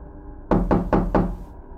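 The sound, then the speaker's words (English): Four firm, evenly spaced knocks on a home door, fairly loud over a faint low hum. “I get a knock at my door while I'm watching TV.”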